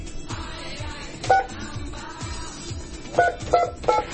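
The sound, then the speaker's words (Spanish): Telephone keypad tones sound as a number is dialed: short, bright dual-tone beeps, one alone and then three in quick succession, over a steady, low background hiss. “Ahí está el tono de Sestel. Característica de 4 dígitos.”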